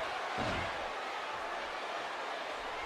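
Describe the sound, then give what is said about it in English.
A wrestler's belly-to-back slam lands on the mat during a pro wrestling match: one brief, heavy low thud near the start, nearly buried in a steady roar of crowd noise that continues throughout. “Huge belly to back slam by Jake the Snake Roberts”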